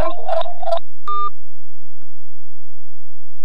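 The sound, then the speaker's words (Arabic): Loud telephone tones mark a phone line cutting off during a radio call-in: a short run of warbling bleeps, then one brief steady beep, followed by near silence. “نعم انقطع الاتصال.”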